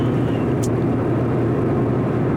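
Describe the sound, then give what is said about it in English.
A car on the road heard from the driver's seat, a loud, continuous low rumble of engine and road noise with no breaks. “I'm behind the wheel on my way back to my folks from my sister's place.”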